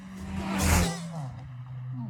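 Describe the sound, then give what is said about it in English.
A Toyota Corolla speeds past. Its engine hum swells into a broad whoosh that peaks near the middle, then the pitch drops lower as the car moves away. “Terry, I didn't realize he was going to speed so much. He's a bouncer in a Toyota Corolla.”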